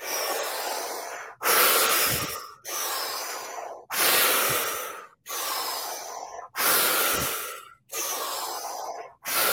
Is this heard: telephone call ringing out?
no